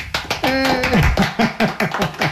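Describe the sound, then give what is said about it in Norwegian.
Hands clapping in brief applause to celebrate a freshly finished hand-knitted sweater. The claps come in a quick, slightly uneven run, mixed with excited voices. “For litt applaus.”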